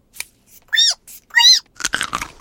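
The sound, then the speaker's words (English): A carrot being eaten: a short burst of crisp crunching and chewing at the end follows a few squealing, voiced vocal sounds. “Wow, George is eating a carrot.”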